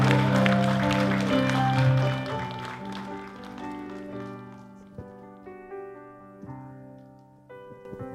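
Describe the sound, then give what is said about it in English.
A church audience claps as a pastor is welcomed, the clapping running under loud music and fading away while the music continues. “Can we give her a big, big hand in this place right now?”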